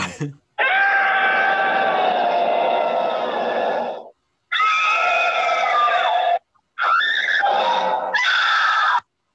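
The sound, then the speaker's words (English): A compilation of people screaming: a few long, loud, harsh screams in separate bursts split by short silences, the first one longest, the later bursts shorter and strained. “I did put together a little like. Scream compilation. I call it a screampilation.”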